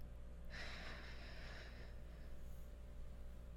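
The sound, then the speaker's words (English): A person breathing in deeply, one soft airy inhale of about a second and a half, faint against a steady low background hum. “Can you breathe with me for a moment? Yeah? Okay. Breathe in.”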